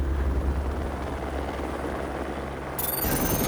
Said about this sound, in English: A police helicopter! We're saved!